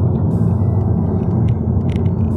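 Continuous low rumble inside a car while driving, loud and even throughout, dominated by deep road and engine noise, with no talk.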